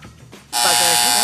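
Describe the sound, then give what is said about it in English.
A loud quiz show buzzer cuts in after a moment of talk: a harsh, steady electric buzz that starts abruptly and holds at full strength to the end. “Two buzzers.”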